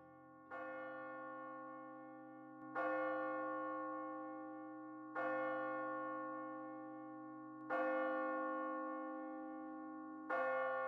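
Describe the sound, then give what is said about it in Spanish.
A clock in an entrance hall strikes midnight with five deep, resonant bell tolls, evenly spaced about two and a half seconds apart, each ringing on and fading slowly before the next. “La medianoche sonó en el reloj del zaguán.”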